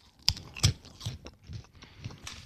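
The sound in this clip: Crisp crunching from someone chewing cheese-flavoured puffed corn snacks, many short, uneven bites and crunches in a loose rhythm, a couple of them sharper and louder near the start.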